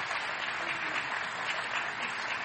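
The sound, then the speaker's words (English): Audience applause as a guest speaker is welcomed to the stage: steady, fairly soft clapping from many hands, even in level for its whole length. “So why don't we put our hands together and give another very warm welcome to Mr. Trevor Loudon.”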